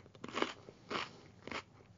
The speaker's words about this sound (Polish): Ja potrzebuję, żebyś ty poszła i nie chrupała mi tak na złość.